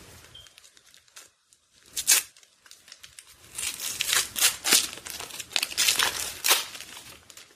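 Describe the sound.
Package wrapping crinkled and torn open as a small gift is unwrapped: papery crackles and rustles, starting sparse and quiet, then growing into a busier stretch of loud tearing bursts and crinkling.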